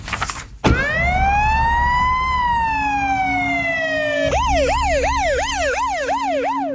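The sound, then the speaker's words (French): Police car siren wailing as the car pulls away in Palo Alto: a loud, slow rising-and-falling wail that switches to a faster repeating yelp, over a low engine rumble. “La voiture de police repart, toute sirène hurlante, sous le regard ahuri des passants.”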